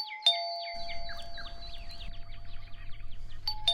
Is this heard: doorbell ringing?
yes